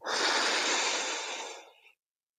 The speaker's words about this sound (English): another breath there